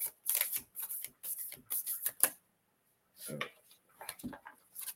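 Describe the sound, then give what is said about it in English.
Cards being shuffled and drawn for a card reading: a series of crisp, papery riffling bursts, then a short pause before a few more quick shuffles. “got these cards coming out for you, girlie. Speaking of, three cards jumped out for you.”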